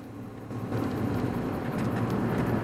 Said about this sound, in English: As the truck turns onto the main road, heading in his direction, Bert steps out to meet it.